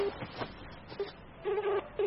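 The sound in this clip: Phone keypad tones sound as a number is dialed for a late-night call. A few short, steady beeps of uneven length are faint over low background noise.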